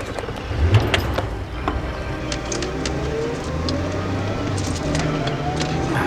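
Car driving off with its passengers aboard: a steady, broad engine rumble with road noise runs throughout at an even level, without any clear change in pitch.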